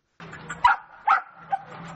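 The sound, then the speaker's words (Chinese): A few sharp dog yelps and howls come from puppies caged at a street market during the Yulin dog meat festival. The cries rise above a low steady background hum. “玉林街头笼子里面临厄运的小狗嚎叫四起”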